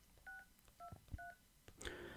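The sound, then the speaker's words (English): Faint telephone keypad dialing of a US senator's office number: three short dual-tone DTMF beeps in an uneven rhythm, then a brighter, higher tone. “I'm going to call and let him know that I'm on to him.”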